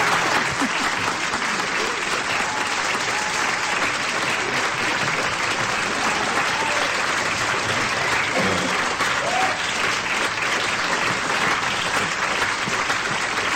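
An audience gives a singer a round of applause, heard as steady, dense clapping that carries on without a break for the whole stretch.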